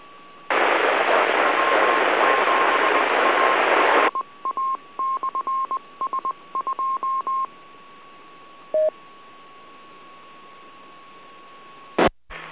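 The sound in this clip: DTMF dialing tones from a radio microphone keypad used on an amateur radio autopatch: a long burst of static hiss, then a quick run of many short beeps, a lone later tone, and a final crackle on a narrowband channel.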